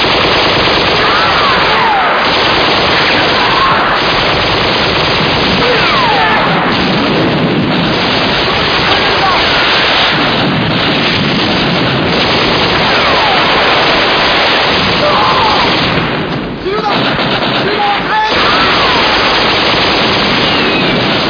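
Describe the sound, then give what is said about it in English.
Guns open fire from a crater in a loud, unbroken barrage of rattling automatic fire and heavy bursts that stays dense and intense throughout. “There are men in the crater. Men in the crater. Crater guns fire. Crater guns open fire.”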